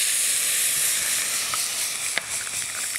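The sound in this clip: Loud, continuous sizzling hiss and steam as a hot pan is deglazed with roasting stock. The hiss stays steady throughout, with a few small pops and crackles.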